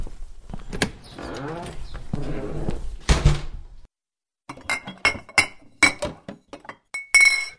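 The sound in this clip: Glass clinks and knocks sound as someone rummages for a bottle of schnapps, with scattered clatters separated by short pauses. The sharp clinks grow more frequent toward the end.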